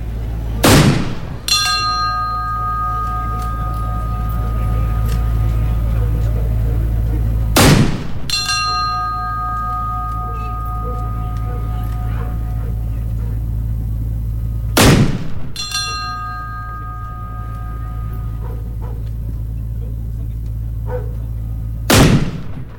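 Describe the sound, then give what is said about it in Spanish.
Cannon salvos from a 21-gun salute honour a corvette, with four loud booms spaced about seven seconds apart. Ringing bell-like tones follow each blast over a steady low hum. “La primera de las 21 salvas, ustedes ya las pueden escuchar.”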